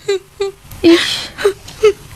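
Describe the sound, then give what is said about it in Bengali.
A woman crying in a string of five short, high whimpering sobs, loud and close together, with a breathy, noisy gasp in the middle and no speech. “ফ্যাঁচ ফ্যাঁচ ফ্যাঁচ ফ্যাঁচ করে কান্না শুরু হয়ে গেল”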